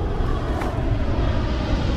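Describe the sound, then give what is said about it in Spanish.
An airplane flies very close overhead as a loud, steady roar. The dense rumble of engine and air noise holds at a constant level throughout, with no distinct separate events and no voices. “El avión está muy cerca se cubren el rostro.”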